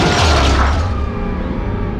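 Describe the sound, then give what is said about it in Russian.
A bomb thrown into a hall explodes with a loud, dense roar that fills the whole span, its hiss thinning as it fades. “В зале полыхнуло белым огнем, страшно грохнуло, опрокинулся стол”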